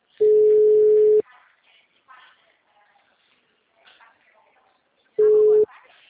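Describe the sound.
A telephone tone after a dropped call gives two steady, mid-pitched beeps. The first lasts about a second, and the second, shorter one comes several seconds later. Faint talk is heard in the gap between them.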